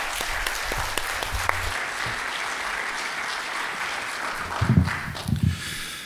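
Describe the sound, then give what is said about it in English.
A church audience applauds to welcome a guest missionary speaker at a morning service. The clapping is steady and continuous throughout, with a few heavier thumps near the end. “So let's give him a warm welcome this morning.”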